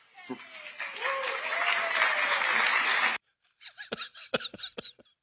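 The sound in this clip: Applause from the crowd at a Joe Biden speech, a dense steady wash of clapping that holds for about three seconds and then cuts off abruptly, followed by a few short sharp sounds.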